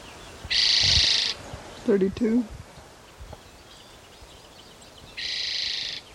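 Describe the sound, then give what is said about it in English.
A chipping sparrow sings two rapid, dry, high trills, one near the start and one at the end, with a brief low sound in between. “Chipping sparrow singing.”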